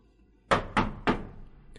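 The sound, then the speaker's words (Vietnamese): Three knocks on a wooden door frame, firm hollow thuds in quick, slightly uneven succession, standing alone against near silence. “Kế Duyên gõ tiếng đánh tên khung cửa, khiến cho người bên trong chú ý”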